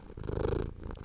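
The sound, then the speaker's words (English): A contented cat purrs in a soft, low, rumbling pulse that rises and falls in quick, steady rhythm. The sound is faint and brief, with no other sounds over it. “That is the sound of a potato chitting. Oh, no, it might be a cat.”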